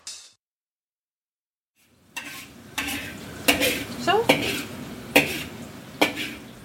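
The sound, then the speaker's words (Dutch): A utensil stirs and scoops food around a hot pan. After a brief sound and a pause, a steady sizzle sets in, and several sharp scraping strokes of the spoon repeat over it. “We blijven roeren en scheppen.”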